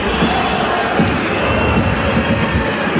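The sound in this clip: Football crowd atmosphere at the Stade Furiani before kick-off: a dense, loud, continuous roar of many voices, with steady murmur and scattered shouts throughout.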